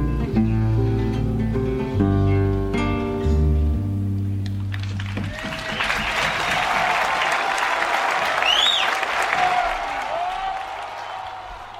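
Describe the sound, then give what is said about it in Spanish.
Crowd applause erupts at the end of a live song after a few seconds of sustained music, with dense loud clapping and a single rising whistle cutting through the noise. “Estos aplausos, Gonzalo, no son para nosotros, ¿eh?”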